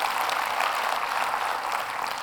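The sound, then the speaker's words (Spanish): An audience claps in a church service, a dense, steady wash of applause that stays even in loudness throughout, with no voices standing out. “Des un aplauso al Señor.”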